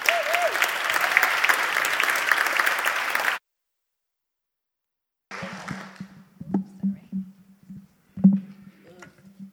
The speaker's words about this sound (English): Let's give Naya a big clap.